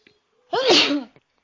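A woman's single sneeze, a sharp, loud burst of about half a second with a short intake and faint breath sounds around it.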